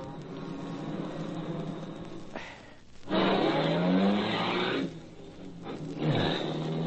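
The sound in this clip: A car engine roars and revs as the vehicle turns around at a dead end. It surges loudly in bursts, with short dips between them.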